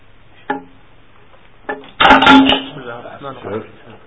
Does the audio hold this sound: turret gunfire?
no